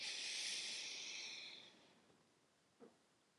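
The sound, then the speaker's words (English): A deep inhale through the nose during a calming breathing exercise, a soft, airy hiss that lasts under two seconds and gradually tapers off into near silence. The breath is quiet, and no one speaks over it. “And then inhale again through your nose as deeply as possible.”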